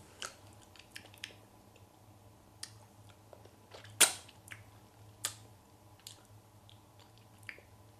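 Chewing and biting on a hard lollipop while tasting it: scattered faint clicks and crunchy crackles over a low steady hum, with one sharper, louder crunch midway.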